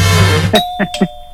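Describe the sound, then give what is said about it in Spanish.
A doorbell chime rings, sounding a few bright, clear tones in quick succession, each ringing on briefly after a low hum at the start. “¿Un toque de timbre o no?”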